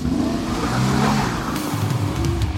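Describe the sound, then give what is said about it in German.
A car engine revs hard as a black vehicle gives chase behind, a dense, steady roar with a rising, straining growl that holds loud throughout, with no voices. “Es ist ein schwarzes Fahrzeug hinter euch her.”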